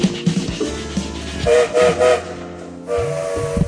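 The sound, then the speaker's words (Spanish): A train whistle sounds three short, bright blasts over the steady rumble and clatter of a moving train, followed by a longer, lower tone near the end. “Sonó el silbato”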